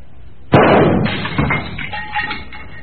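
A single gunshot cracks sharply and is followed at once by a loud, scattering crash of breaking glass and debris as a candle holder and a picture are shattered, the clatter trailing off over about two seconds.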